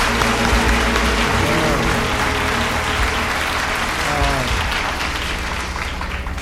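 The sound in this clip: A live choir-concert audience applauds and cheers loudly, with dense, steady clapping mixed with whoops and shouts. The applause holds evenly and tapers slightly near the end.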